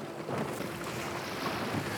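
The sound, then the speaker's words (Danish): Waves on a Danish lake whipped up by an east wind: a continuous rushing wash of water and wind buffeting, steady and fairly loud, with no separate splashes standing out. “Ja, der er jo lidt bølger herude i dag, men det er der, når at vinden den kommer fra øst.”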